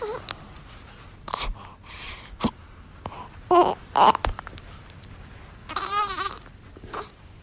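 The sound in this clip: A four-day-old newborn baby makes scattered little noises: short squeaks, soft grunts and brief fussy cries. They are quiet and irregular, separated by gaps of low background hiss, with a slightly longer whimper near the end.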